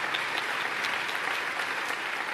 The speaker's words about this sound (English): Yes, you can clap on that.